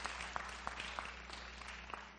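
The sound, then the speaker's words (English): Brief audience applause welcoming someone to a stage, with soft scattered claps forming a light, even patter. “Let's give Jacob a round of applause.”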